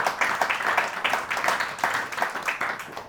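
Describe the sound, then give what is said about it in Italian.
Weak, lazy applause from the audience at a stand-up comedy night: soft, thin, uneven clapping that pulses in small loose bursts for a few seconds without ever swelling. “È l'applauso più pigro che abbia mai sentito nella mia vita”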